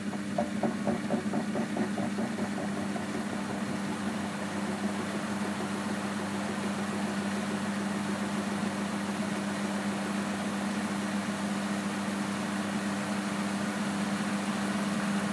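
A washing machine on its spin cycle gives a steady, continuous motor hum with a slight whine, holding an even level throughout with a faint fluttering pulse in the first few seconds.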